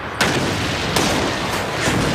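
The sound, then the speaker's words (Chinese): Artillery guns fire at approaching Matilda tanks, three heavy booms spaced unevenly apart over a dense, constant roar of battle. “命令炮手向逼近的马蒂尔达坦克开火。 每门大炮都要立刻开火”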